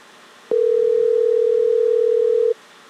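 A telephone ringback tone plays while a caller waits for an answer: one steady, mid-pitched electronic tone lasting about two seconds, loud and alone, starting and stopping abruptly.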